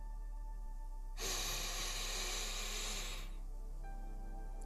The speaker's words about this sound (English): Take a deep breath in.